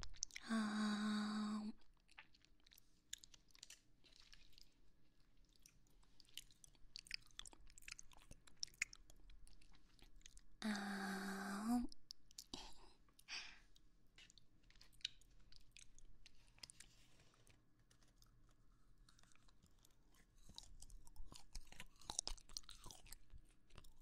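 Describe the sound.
Someone chewing and biting into food: quiet, crunchy mouth sounds repeat many times, broken by two brief, loud tonal bursts.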